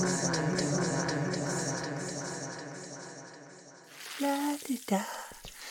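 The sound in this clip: Breakfast frying in a pan in a radio drama gives a steady, crackling sizzle for about four seconds, then a brief sung voice joins amid a few louder clatters.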